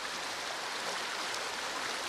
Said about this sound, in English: The cold, clear water is flowing rapidly out of a cave-like opening over rocks and fallen tree branches in what was a dry creek bed.